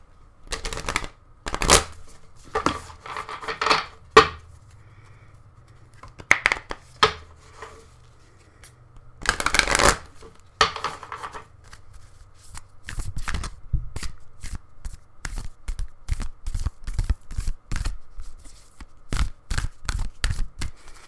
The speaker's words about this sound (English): I got the Herbiary and the Bestiary, and I'm hooked on them. I love them so fucking much. So we're going to pull a card from there if I don't drop them all, because I totally just about did.